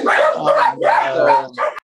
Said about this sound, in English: No, this is fine. I've listened to like a lot bigger podcasts that have had dogs in the background. So at this point, I'm just rocking with it.